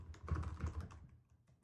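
Someone types a short text message: a quick burst of many soft taps lasts about a second, then thins to a few isolated taps, faint, with no speech.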